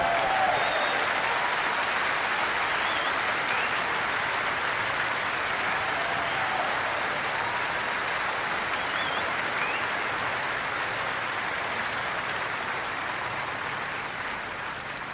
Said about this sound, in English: Give her an enormous applause.